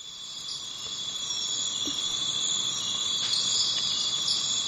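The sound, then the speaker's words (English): Crickets and other insects fill a jungle ambience with a steady, high, shimmering buzz. A few faint chirps rise out of it, and no voices are heard. “Alexa, open Jungle Trek. Sit back, close your eyes and relax. Let's travel. Welcome to the jungle.”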